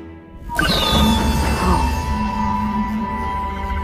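An energy blade from The Book of Boba Fett ignites with a sudden surging burst, then settles into a loud, steady electric hum with a tonal buzz that holds to the end.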